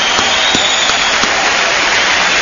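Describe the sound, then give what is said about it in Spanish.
Audience applause, a dense and steady wash of many hands clapping that holds at an even level for the whole stretch, with no clear break or voice on top. “Con un aplauso de toda la bola de cabrones, claro. Claro que los que no aplaudan es porque son putos.”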